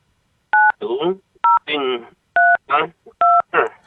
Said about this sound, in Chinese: 把他这个界面打开，在这个里面打入电话号码就记下了。